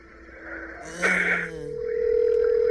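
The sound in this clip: Telephone tones mark a caller coming in on a radio show: a short burst of chirpy tones, then a steady held tone that grows louder to the end.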